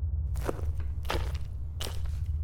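Footsteps of two people walking slowly down a sloping tunnel floor: three distinct, evenly spaced scuffing steps over a steady low rumbling hum, with no voices.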